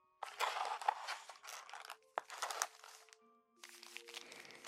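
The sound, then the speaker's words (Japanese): Homemade sweets being eaten, with crinkling and crunching in papery bursts separated by short quiet gaps. The sounds are faint and no one talks. “普段お菓子作りなんてしないから難しかったけど頑張って作ったんだ。だからしっかり味わって食べてね、お兄ちゃん。 ん？今食べるの？ もちろんいいよ。”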